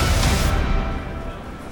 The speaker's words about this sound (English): freight train leaves the city's central station packed with cargo.